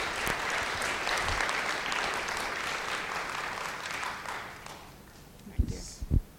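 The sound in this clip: An audience claps to welcome a speaker forward at a Teen Challenge gathering. The applause is steady for about five seconds, then fades, and a few soft thumps follow.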